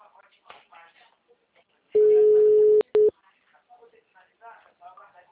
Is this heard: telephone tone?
yes

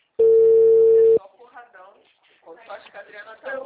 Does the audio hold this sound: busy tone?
yes

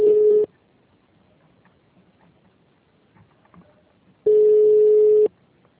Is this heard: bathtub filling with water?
no

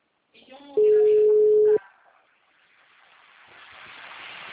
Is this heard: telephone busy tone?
yes

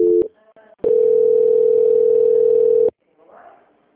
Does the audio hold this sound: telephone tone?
yes

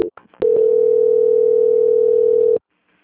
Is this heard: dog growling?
no

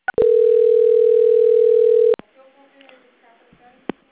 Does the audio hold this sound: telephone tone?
yes

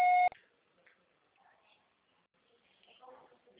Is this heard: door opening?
no

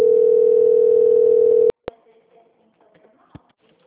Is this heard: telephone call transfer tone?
yes

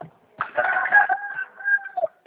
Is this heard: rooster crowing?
yes

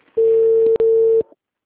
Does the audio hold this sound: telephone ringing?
yes

